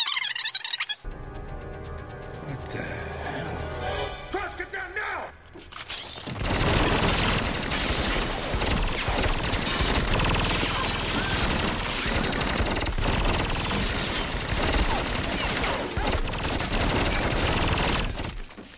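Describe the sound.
Automatic gunfire in a video game: a dense, loud stream of rapid shots runs almost continuously after a quieter, busier opening stretch.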